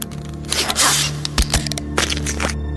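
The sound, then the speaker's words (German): A brain-sampling device in a science-fiction radio drama whirs electronically as it calibrates. A steady low hum runs under bursts of harsh, scraping noise that swell and break off several times. “Man presst es an die Kopfhaut und drückt diesen Knopf hier. Nein, nein, bitte doch. Hörst du das, Ben? Das ist die Justierung. Dauert etwa 5 Sekunden.”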